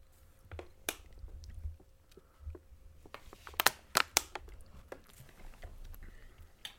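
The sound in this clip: A spoon scrapes and clicks while someone eats peanut butter, bacon and maple syrup, with faint chewing and a few sharp clicks and smacks that are sparse at first and then cluster in the middle.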